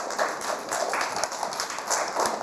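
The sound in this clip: Children clap for a guest at a children's health talk, a dense, scattered patter of hand claps at moderate loudness that keeps going steadily for a few seconds without a pause.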